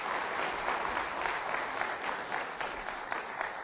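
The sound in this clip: Audience applause welcomes a speaker to the stage at a morning gathering: steady, dense clapping that holds at an even level through the whole clip, with no voices over it.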